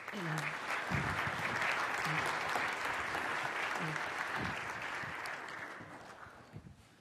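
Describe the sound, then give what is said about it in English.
A church audience applauds to welcome guests up front, a steady wash of many hands clapping at a soft level that slowly thins out and tapers away at the end. “So at this time, I'm going to invite Brett and Rob in Germany to come up, and they're going to share their story. Let's give them a hand this morning.”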